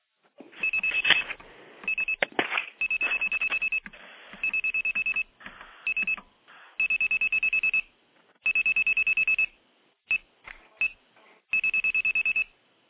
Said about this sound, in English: that's the exact rate of a telephone dial, but using 2600 hertz tone. So let me dial a number just to show you what it would sound like.